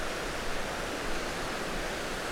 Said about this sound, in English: And this is the sound of it pouring out the other side, just a tumble of white water.